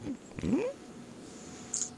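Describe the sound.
A person's voice imitates a black cat's call, a faint, short, rising meow-like whine, followed by a brief higher squeak near the end.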